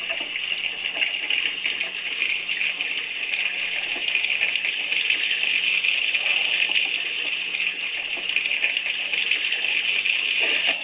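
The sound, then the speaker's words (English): Tap water runs steadily from a faucet into a sink before the water is set alight, making a continuous, even rushing hiss with no talk. “For those of just listening on Blog Talk, this man is lighting his tap water on fire. Just give it a second.”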